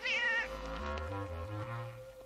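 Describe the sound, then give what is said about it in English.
A cat meows once, a clear, loud, high and wavering cry at the start, followed by lower steady tones. “There's a good pretty cat.”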